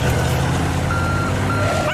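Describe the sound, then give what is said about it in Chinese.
Beeping from an aerial ladder truck as its ladder rises for a rescue, with repeated high electronic beeps over a steady low engine rumble that holds throughout. “云梯升起，准备好执行汪汪救援任务。”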